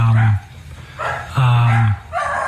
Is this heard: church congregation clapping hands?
no